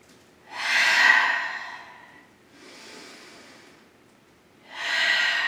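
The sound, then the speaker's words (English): Cleansing breaths drawn in through the nose and let out through the mouth during a yoga session: three airy, breathy rushes, the first and last strong and the middle one softer, with no talk. “I want you to take three cleansing breaths. Your cleansing breaths just simply mean in through the nose and out through the mouth.”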